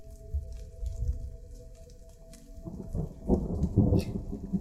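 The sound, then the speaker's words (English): Low thunder rolls across the clouds, a deep, steady rumble that swells louder toward the end with faint crackling on top. “Thunder rolls across the clouds above you, obscuring the moons from view.”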